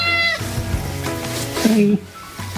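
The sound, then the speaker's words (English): A cat meows in a long, drawn-out call that starts bright and settles into a lower, sustained tone. It is fairly loud and heard on its own, without talk. “Experts suggest cats can make over 100 unique types of sounds, ranging from low, elongated growls to joyful, chirpy greetings. Meow.”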